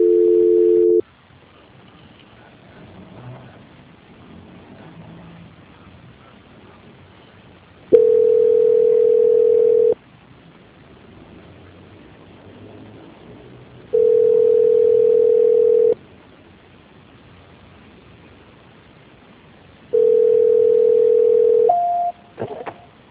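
Telephone line tones sound as a call drops during a transfer. Four steady mid-pitched beeps are separated by longer gaps of quiet line hiss, and the last beep shifts briefly higher at its end.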